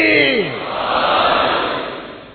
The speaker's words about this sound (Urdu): صلوات۔ نعرہ حیدری۔